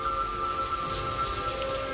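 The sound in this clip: Rain falling, a steady, even hiss of drops on surfaces that continues unbroken throughout.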